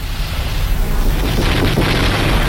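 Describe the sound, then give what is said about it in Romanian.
Wartime gunfire and shelling heard as a dense, loud, continuous roaring rumble, with no separate shots standing out. “Dar tot se mai trage. De ce n-or înceta?”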